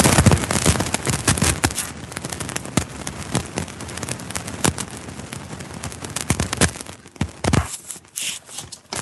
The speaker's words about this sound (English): The answer is a big explosion of static. I'm glad I'm not the only one getting that static.